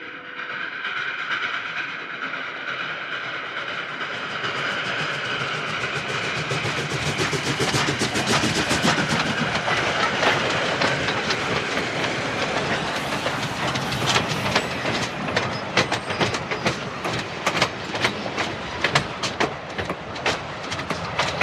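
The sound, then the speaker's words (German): A passenger train rolls in with a broad, hissing rumble that grows louder, then rhythmic clickety-clack of wheels over rail joints emerging clearly and repeating through the second half. “Pennsylvania Special rollte gerade ein,”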